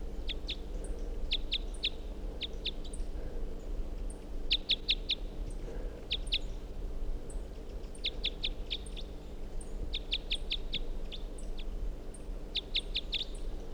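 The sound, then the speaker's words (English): Wild bird calling in many short bursts of rapid, high-pitched chirps, repeated in quick clusters over a faint low background hum. “Wild bird.”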